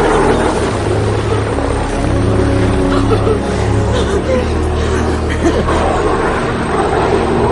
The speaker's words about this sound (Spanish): El helicóptero se va.